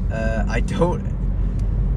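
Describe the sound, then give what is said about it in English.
Steady low rumble of a car driving at night, running continuously beneath a person talking. “I'm going to record while I drive at night. It's currently 9:07. I'm driving right now.”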